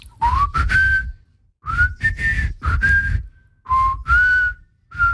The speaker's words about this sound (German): kannst du eigentlich gut pfeifen? Natürlich, soll ich jetzt mal.